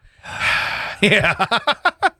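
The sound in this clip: A man gasps, unable to catch his breath: one long, breathy inhale followed by a rapid run of short, voiced, wheezing gasps.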